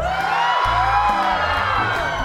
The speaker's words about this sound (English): Audience, why don't you let our storytellers know you're there? Give us your best blood-curdling scream, if you will.